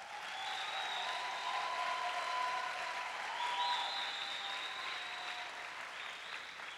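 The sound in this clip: Warm audience applause welcomes a visiting pastor and his wife at a Bible school gathering, a soft, steady patter of many hands that holds for several seconds, with faint tonal ringing above it.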